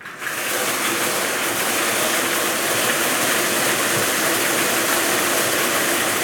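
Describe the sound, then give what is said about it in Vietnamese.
Steady whirring rattle of five lottery ball cages spun together for a Kiên Giang lottery draw, a continuous loud churning with no talk and no pauses. “Giải này được quay 5 lồng cầu và quay 7 lần. Sau đây là lần quay thứ nhất, mời 5 em quay số.”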